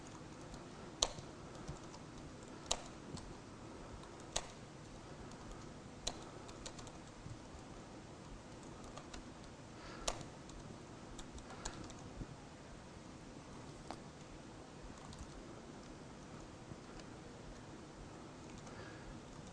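Sparse typing on a computer keyboard as German text is entered into a text editor: faint, scattered clicks at an irregular pace over a low steady hiss.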